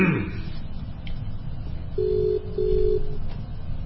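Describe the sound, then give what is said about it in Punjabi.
Telephone line tone of an incoming call: two low, steady beeps in quick succession over a constant hiss of line noise. “ਇੱਕ ਦਰਸ਼ਨ ਸਿੰਘ ਉਹਨਾਂ ਦੀ ਕਾਲ ਆਈ ਆ Lahore miss call”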